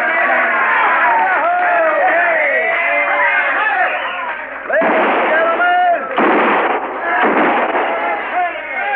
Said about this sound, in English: kindly refrain from shooting six guns in the establishment, because the next man that does it's going to get thrown out on his saddle.